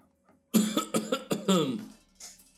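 A fit of several harsh coughs in quick succession during a tabletop role-playing session, then one softer cough after a short pause.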